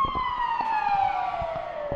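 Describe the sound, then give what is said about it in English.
An emergency vehicle siren passes as one loud, continuous wail whose pitch glides slowly and steadily downward across two seconds, over faint low background noise. “I hope nobody's hurt too bad. For the siren there”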